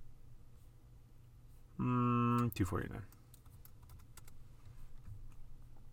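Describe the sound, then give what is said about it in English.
Typing a search on a computer keyboard: a quick run of light, faint key clicks following a brief louder tonal burst. “So let's just type in 2019 Prism Ja Morant PSA 10.”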